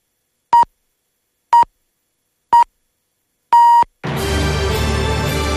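Hourly time signal on Polish Radio's Program Three: four steady, same-pitched beeps about a second apart, the fourth held longer than the first three, immediately followed by loud, dense sound.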